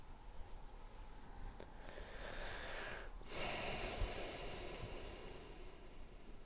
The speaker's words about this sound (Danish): Nu må du gerne tage tre dybe indåndinger med lukkede øjne.